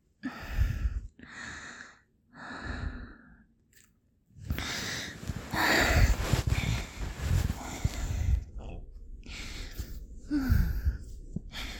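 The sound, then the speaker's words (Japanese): A person's breathing gradually steadies after exertion: a few short, separate breaths, then a long stretch of continuous breathy noise, then more uneven breaths with a faint voiced catch near the end. “呼吸を整えます。”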